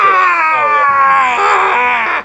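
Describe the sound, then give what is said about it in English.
A voice imitates the hideous scream of a goblin being shaken in a hyena's jaws. It is a loud, strained, sustained shriek with a wavering pitch, lasting about two seconds. “As it awakens half in the hyena's jaws, as it is shaken from side to side, screaming with a horrible kind of hideous goblin”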